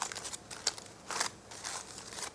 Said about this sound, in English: Now you start to unwrap. So, we lose all that little lot. And here comes the pudding.